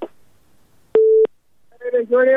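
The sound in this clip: A single steady telephone tone, like a busy signal after a call was cut off, sounds loud and even for about a third of a second. Talk comes before and after it.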